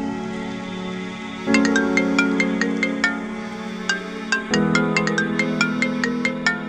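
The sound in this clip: A phone ringtone plays bright, quick electronic chiming notes in a melodic run that repeats, layered over a sustained low tone, loud and alone.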